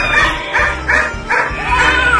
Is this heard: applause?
no